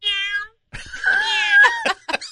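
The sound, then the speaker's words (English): A person imitates a cat's meow through a speaker to scare off mice: a few drawn-out, tonal meows, the middle one longest with a wavering pitch, followed by short clipped mews, with no other sound between. “Pretending to be a cat, yeah, to scare the mice away.”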